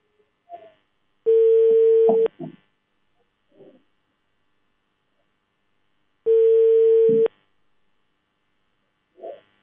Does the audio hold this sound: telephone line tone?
yes